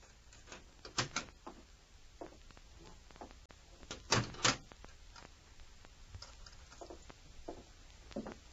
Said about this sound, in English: Then he heard the click of a lock.